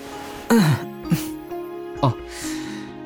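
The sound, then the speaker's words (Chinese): A person clears their throat with three short voiced rasps, the first falling in pitch, over a soft sustained musical tone. “清清嗓子道”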